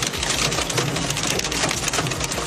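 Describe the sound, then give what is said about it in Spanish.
Heavy rain from a deadly storm in the US Midwest makes a loud, steady, dense hiss with constant patter that does not let up. “Y aquí en Estados Unidos, tormentas mortales.”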